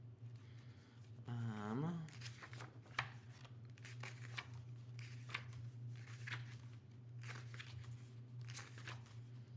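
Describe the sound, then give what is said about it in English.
Stiff pages of a long-unused book flipped one after another give faint, crisp papery rustles and snaps, with a brief voice near the start over a low, steady hum. “Flipping through all of my pages because I haven't used this book in so long. They're like stiff.”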